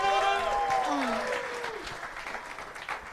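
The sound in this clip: An audience applauds and cheers a comedian taking the stage. A voice rings out over the opening as dense clapping begins loud and then thins gradually, with a few whoops scattered through it.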